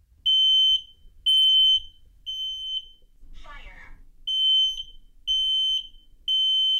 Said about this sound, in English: That's a smoke alarm in my house. After my son presses a button to test it.